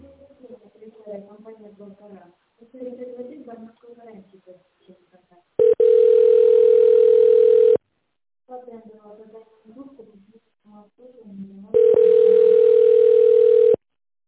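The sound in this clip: Telephone ringback tone plays while a caller waits for an operator after an automated phone menu. A recorded voice speaks before and between two long, steady, mid-pitched tones of about two seconds each.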